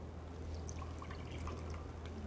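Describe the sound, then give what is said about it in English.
Water is poured carefully out of a bowl, draining off the liquid above a settled layer of starch. It sounds like a steady, soft trickle with scattered light drips throughout, and no one speaks. “So we're gonna carefully pour the water out,”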